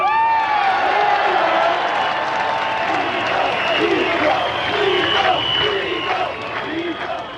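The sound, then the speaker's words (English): A crowd cheers wildly after a speech, with loud, sustained roaring, whoops and shouting voices over clapping. The noise stays at full intensity for several seconds and eases slightly only at the end. “The crowd went crazy.”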